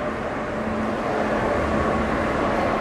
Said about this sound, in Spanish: Hoy, viaje inesperado, en el metro.